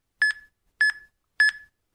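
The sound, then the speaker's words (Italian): A smartphone sends a message, giving a series of short, high electronic chirps, three full blips evenly spaced with a fourth just starting, each a quick double-pulsed tone over silence. “Quindi adesso io invio il mio messaggio. Inviare.”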